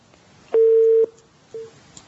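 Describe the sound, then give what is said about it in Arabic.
Telephone tone of a disconnected call: one steady mid-pitched beep of about half a second, then a shorter, fainter beep after a brief pause. “قطع اتصال.”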